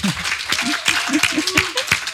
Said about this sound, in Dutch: Mag ik een applaus voor Danielle Doeven?